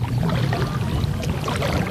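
Canoe paddle dipping into mirror-smooth water in Mexico City, stroking right and left, giving continuous soft splashing, trickling and gurgling water with a steady, fairly loud wash throughout.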